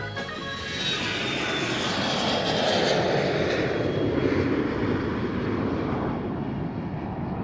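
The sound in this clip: An airplane takes off, its engines giving a loud, continuous broad roar with a thin high whine above it, heard alone without voices.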